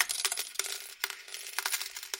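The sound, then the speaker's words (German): Several coins drop into the slot of a gambling machine, making a quick run of bright metallic clinks and rattles of uneven loudness, with no voices. “Die piepsende Tonfolge eines Glücksspielautomaten. Mehrere Münzen fallen in den Schacht.”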